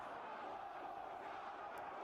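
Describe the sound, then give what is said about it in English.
Faint, steady crowd roar from a 1995 ECW wrestling arena show as fans chant for the wrestler 911. The voices blur into a continuous low wash. “The crowd's chanting 911.”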